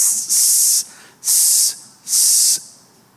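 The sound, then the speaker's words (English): A voice imitates a snake's hiss with three loud, breathy hisses, each held for about half a second, separated by short pauses. “there's a snake hanging down above her going like,”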